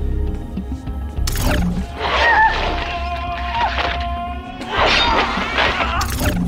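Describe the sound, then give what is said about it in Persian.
Fast backhand strikes with a 38 cm sword make a few sharp, cracking impacts mixed with harsh, noisy bursts. The hits come irregularly and stand out loudly. “خیلی خوب، یه بار دیگه با یه شمشیر 38 سانتی، ضربات سریع و معکوس.”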